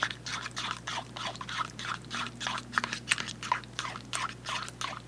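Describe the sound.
Crunchy chewing of breakfast food, with many rhythmic bites and crunches following one another at a steady pace, moderately loud and without any talk over it.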